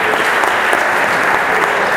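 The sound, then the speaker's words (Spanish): An audience applauds at an opening ceremony event, dense steady clapping that stays loud and even throughout, with no talk over it. “Fuerte el aplauso para ellos.”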